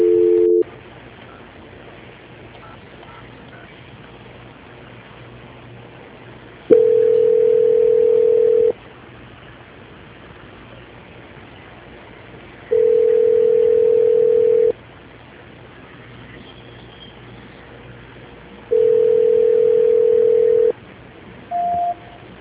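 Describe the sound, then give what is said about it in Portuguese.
Telephone call-transfer tone on a phone line: three long, steady beeps at even intervals, opening with a brief two-tone beep and ending with a short higher beep, with no talking. “que eu vou transferir para São Paulo, tá? Só um minutinho. Transferência.”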